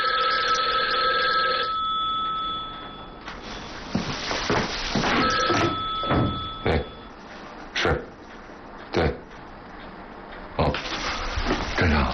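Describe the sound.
A telephone bell rings loudly in an office setting, a steady bright tone at first, then a series of harsh, jangling bursts separated by short gaps.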